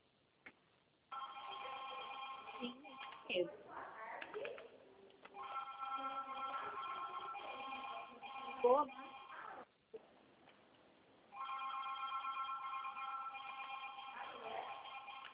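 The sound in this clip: A telephone ringing over a narrowband phone line, with long trilling rings separated by short pauses. The rings hold a fairly steady level, with faint scattered noises in the gaps between them.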